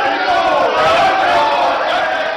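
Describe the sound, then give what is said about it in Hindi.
Congress party members shout slogans in the well of India's Rajya Sabha: many loud, overlapping voices in a continuous uproar. “Rajya Sabha में तो काफी जमकर हंगामा हुआ, क्योंकि सारे जितने सदस्य थे कांग्रेस के वो सब वेल में आ गए और नारे लगा रहे थे।”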